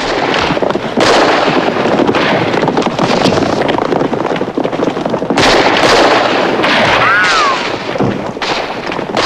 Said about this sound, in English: Mace sees them and shoots another bandit who is heading for Dee.